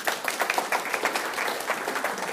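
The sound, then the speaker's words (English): Dense, steady applause from an audience at a church gathering, many hands clapping together at a fairly loud, even level for the whole stretch with no break. “Can you give him a round of applause?”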